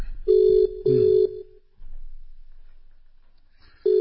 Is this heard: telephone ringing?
yes